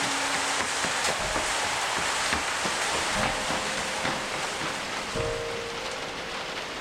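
A sudden downpour of rain makes a dense, steady hiss of drops hitting surfaces, loud and unbroken throughout, with a few heavier spatters standing out.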